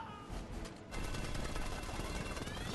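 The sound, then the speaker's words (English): Rapid gunfire in a film scene, dense bursts of overlapping shots that grow louder and steadier after the first second and keep going as a continuous volley. “Oh, the sound design is brilliant. The sound of bullets in this are just a symphony.”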